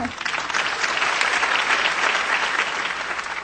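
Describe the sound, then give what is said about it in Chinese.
An audience applauds at a formal evening event after an official's speech is announced, with steady, dense clapping that holds at an even loudness throughout. “大家再鼓掌。”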